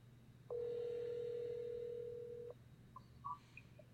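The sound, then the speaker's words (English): A telephone dial tone as a call is placed: a steady mid-pitched tone holds for about two seconds, then stops, followed by a few short faint beeps. “Did he send it straight to voicemail? I'm calling him. I'm calling.”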